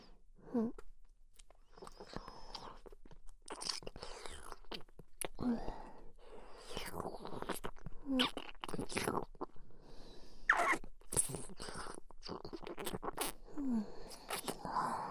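Close mouth sounds in an ASMR role-play of eating the listener's ear: wet chewing, biting, crunching and smacking in uneven bursts, with soft whispering between them.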